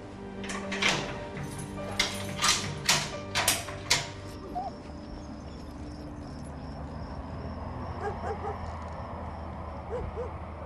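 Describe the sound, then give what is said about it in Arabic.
A door being closed, heard as a handful of sharp clacks and rattling latch knocks in the first four seconds, followed by a quieter stretch of low background noise with faint tonal sounds. “سكر الباب. أمرك سيدي.”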